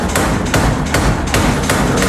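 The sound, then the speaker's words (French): A modern blacksmith's power hammer striking at a forge: loud, heavy metallic thuds repeat in a steady, rapid rhythm. The blows run continuously without a pause. “Et puis, il a aussi un marteau pilon, le marteau pilon qui s'est modernisé.”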